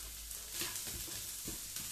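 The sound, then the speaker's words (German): Carrots frying in a hot pan give a steady, faint sizzle of crackling hiss, with a few soft bumps as the pieces are stirred. No one talks. “Hört sich brutzelig an. Dann hauen wir erstmal die Karotten rein. Und braten die auf der einen Hälfte an.”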